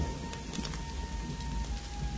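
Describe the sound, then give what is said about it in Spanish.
Heavy rain pours down and puts out a fire, a steady, dense hiss with a full low roar that holds evenly throughout, with no voices. “Una intensa lluvia cae apagando el fuego.”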